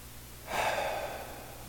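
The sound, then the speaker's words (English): A single deep breath taken during a church worship service: a soft, airy inhale that swells quickly, then tapers off slowly, heard alone without talk. “I invite you to take a deep breath with me as we welcome God.”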